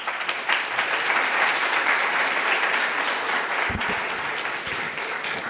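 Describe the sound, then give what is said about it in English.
Audience applause welcoming a speaker to a public lecture on drug myths, a continuous, even wash of many hands clapping that stays steady and fairly loud throughout. “So join me in welcoming Andrew.”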